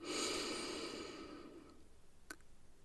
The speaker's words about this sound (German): Atme durch die Nase ein und durch den Mund aus. Einatmen